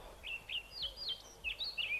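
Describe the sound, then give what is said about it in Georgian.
Eurasian blackbird singing: a short run of several high, whistled chirping notes in quick, uneven succession, fairly faint and with no voices. “მოგეწონა შაშვის გალობა? კი ძალიან. მაგრამ ნამეტანი მოკლე იყო მისი სიმღერა.”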